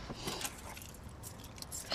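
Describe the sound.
Faint metallic jingling of keys being handed over through a limousine window, with a few light clinks scattered through an otherwise quiet moment.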